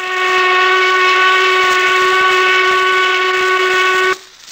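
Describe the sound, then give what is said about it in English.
A noon work whistle blasts one long, loud, steady tone rich in harmonics, holding for about four seconds before cutting off abruptly. “Herman went on working till the whistle blasted noon.”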